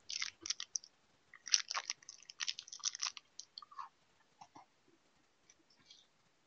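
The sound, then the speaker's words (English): Someone eats a snack, making many quiet, irregular crunching bites and chews in crisp clusters. The chewing is busiest early on and thins out toward the end. “I'm going to eat something right now. You're going to guess what it is. Ready? You got 15 seconds to listen to me unwrap it and start eating it.”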